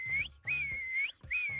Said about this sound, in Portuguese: isto são só três assobios mesmo